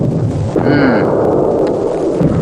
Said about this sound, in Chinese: 哇，这么多炮弹呢、啊，像下饺子一样。